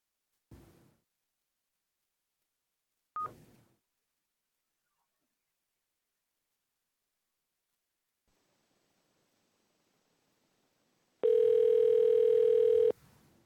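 A telephone call is placed during a Public Service Commission hearing: two sharp clicks, a long quiet gap, then a steady, loud, pure tone lasting about two seconds.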